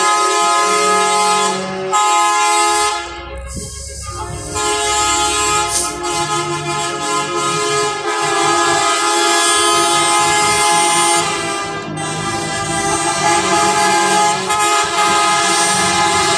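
Truck horns blaring as trailer trucks roll past in a May 1 Labor Day parade in Dolores Hidalgo: loud, sustained, overlapping horn blasts over rumbling engines, continuing almost without pause throughout.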